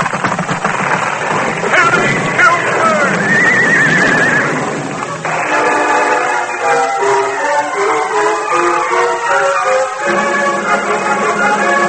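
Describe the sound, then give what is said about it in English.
Hooves of the horse Silver pounding across a wooden bridge, a loud, steady clattering beat with a shrill, wavering whinny rising early on. “Silver's mighty hoof thundered on the board. The bridge swayed and trembled.”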